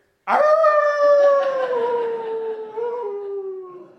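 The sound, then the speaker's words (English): A person's voice imitating a dog howling: one long, loud howl starting abruptly, its pitch sliding slowly downward as it gradually fades over several seconds. “and the howls would get closer and closer until we saw her”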